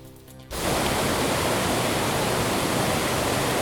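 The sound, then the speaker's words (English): Whitewater on the Gull River in Haliburton County, a kayaking and canoeing run, rushes in a loud, dense, unbroken roar that cuts in abruptly after a brief quieter moment and holds steady. “The sound you're hearing is the mighty Gull River.”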